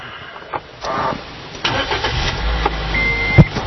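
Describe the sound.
A Baojun 560 car engine is started, cranking over somewhat slowly before catching into a low, steady idle rumble, with a short electronic beep near the end.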